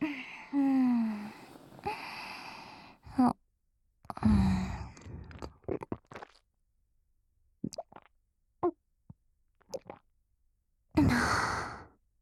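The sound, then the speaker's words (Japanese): A swallowing gulp amid heavy sighs and breaths: long exhales broken by a few soft, wet plops and clicks, quiet and close. “聞こえた？ごっくんの音。”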